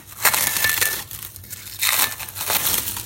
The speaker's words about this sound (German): So, vorsichtig die Folie abziehen, damit sich nicht ganze, der ganze, Teig, dass der dann an der Folie klebt.